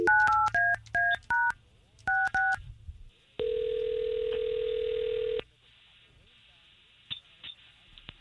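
Touch-tone telephone keypad beeps as a number is dialed: a quick run of short two-tone beeps, a brief pause, then a long steady tone lasting about two seconds, with faint clicks afterward.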